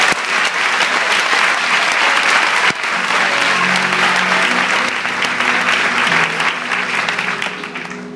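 An audience applauds during a church service in a long, loud, sustained burst of many hands clapping. The applause stays dense and steady throughout, then tapers slightly toward the end.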